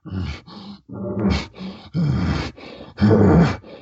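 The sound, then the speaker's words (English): A bull's pant call, the kind used ahead of bugles or chuckles, comes as a series of rough, breathy, low panting bursts separated by short gaps. The bursts are fairly loud and the last ones are strongest. “When a bull uses a pant, and a pant is this.”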